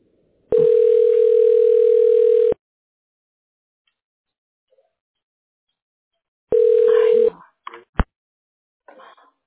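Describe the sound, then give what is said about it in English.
Telephone dial tone on a line being dialed to reach a tax specialist: a steady, loud hum lasting about two seconds, then a shorter burst of the same tone, followed by a few sharp clicks. “Now we're dialing the tax specialist right now for assistance.”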